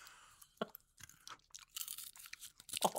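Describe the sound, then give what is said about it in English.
Peanut shells crack and nuts are crunched and chewed during ASMR nut eating, with many irregular sharp cracks, snaps and crunchy chewing bursts separated by short quiet gaps. “Let me really crack into this nut. Hey, everyone. I'm going to crack into this peanut. I'm going to crack the shell.”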